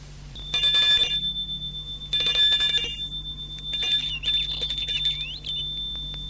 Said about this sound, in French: Au même moment, l'on sonne au portail.